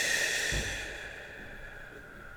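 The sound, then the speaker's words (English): A deep breath taken during a guided relaxation exercise, a soft airy exhale that fades quietly over a faint, steady tonal background. “take a deep, energizing breath. Inhale. And exhale.”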